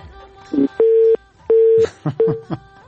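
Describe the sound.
A telephone busy tone sounds after a dropped call: a few loud, even beeps at one steady pitch, separated by short gaps.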